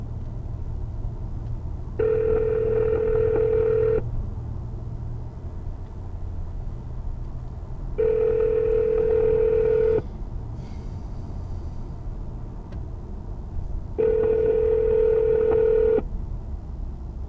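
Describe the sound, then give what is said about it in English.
Outgoing telephone ringback tone on a call waiting to be answered: three steady two-second ring bursts, evenly spaced about six seconds apart, over a continuous low rumble. “Calling. Okay, now we should hear her. If she picks up.”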